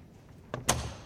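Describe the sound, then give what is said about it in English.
A locked library door unlocks with two short, sharp clicks in quick succession, the second louder, against a quiet background. “Then you approach another set of locked doors where you wait for a click.”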